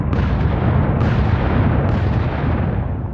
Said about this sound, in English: 40 Union siege mortars fire away at Fort Wagner.